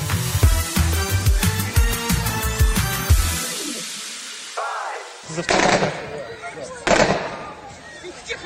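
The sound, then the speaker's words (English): Gunfire during an armed attack on a concert hall in Moscow: a rapid run of sharp cracks for about three seconds, then a lull broken by a few heavier, isolated bangs. “That was the sound of the attack on the Krokus City Concert Hall in Moscow last weekend,”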